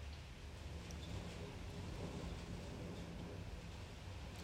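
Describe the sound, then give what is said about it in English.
Rain falls on a roof and windows while wind moves through trees, making a soft, steady hiss that holds evenly throughout with no distinct drops or gusts standing out. “You can hear the rain falling on the roof and the wind blowing into the trees and the rain pouting on the windows”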